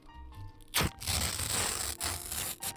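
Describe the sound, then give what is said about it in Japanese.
Tearing of a paper receipt point card, lighter than ordinary paper: after a short quiet start, a sharp rip begins, then continues as a sustained papery tearing for about two seconds, broken by a couple of brief pauses. “ポイントがついたよっていうレシートポイントカード、ちょっと普通の紙より軽い音なのかな。”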